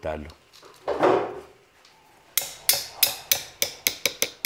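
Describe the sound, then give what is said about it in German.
A folding knife being closed. A brief rustle comes first, then a run of about ten sharp, bright clicks that quicken toward the end. “Ich probiere jetzt mal aus, ob das passt. So schließt man das Messer.”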